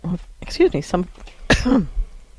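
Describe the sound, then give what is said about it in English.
Someone clears their throat with short, rough, gravelly rasps, mixed in with voiced speech. “Excuse me, frog in my throat.”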